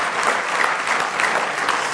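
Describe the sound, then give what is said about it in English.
A church audience claps hands in praise, dense sustained applause from many people, steady and loud throughout with no talk over it. “Give him one more good hand clap of praise this morning.”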